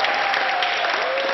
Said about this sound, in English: So that sound you're hearing, that is the sound of the hospital staff cheering David as he left.